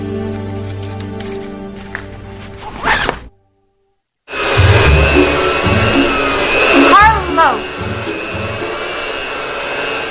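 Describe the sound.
A household vacuum cleaner runs with a loud, steady whirring roar that starts after a short gap of silence and holds at an even pitch, while people talk over it.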